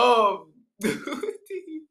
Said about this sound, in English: So that's a weed cough.